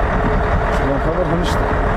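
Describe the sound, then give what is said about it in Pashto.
Loaded cargo trucks driving by, a loud, steady rumble of engines and road noise that holds at a constant level throughout, with indistinct voices mixed into the din. “راپور د بارونکو موټرو په ږغ پیلېږي.”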